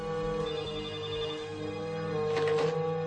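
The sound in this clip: A mobile phone rings in a 1993 TV series scene, an electronic ring tone heard steadily over a sustained tonal background, with a brief brighter burst near the end.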